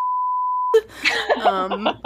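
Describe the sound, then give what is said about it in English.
A steady, high-pitched censor beep hides a spoken name for about three quarters of a second, then a voice goes on talking without a break. “I'll say it and then maybe we'll bleep it out.”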